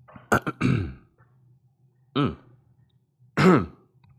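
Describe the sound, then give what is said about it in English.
Throat clearing in a few separate bursts: a quick double rasp followed by a longer rumble, then two more isolated clears spaced by quiet pauses. “had a little caught in the throat. Gonna have to edit that out.”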